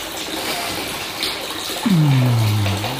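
Bath water sloshes and washes around a person bathing in a filled tub, a steady soft watery hiss throughout, joined near the end by a low, drawn-out voiced tone like a contented sigh.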